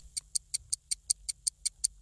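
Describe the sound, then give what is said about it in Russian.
A clock ticks in crisp, high, evenly spaced clicks, about eleven ticks in two seconds, keeping a steady rhythm alone over a faint low hum. “Время тик-так.”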